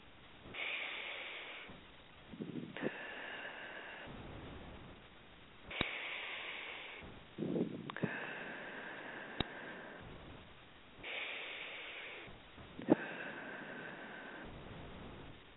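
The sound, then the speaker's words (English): Three slow, deep breaths taken during a guided meditation exercise, each a soft airy inhale followed by a longer, fuller exhale, evenly spaced and quiet, with no talk over them. “we start by taking three slow, deep breaths again.”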